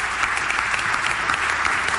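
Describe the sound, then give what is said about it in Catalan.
Applause for the winner of the Valls calçots contest, a thick, continuous wash of many people clapping, steady and loud without a break. “Un aplaudiment pel guanyador del concurs de calçots de Valls.”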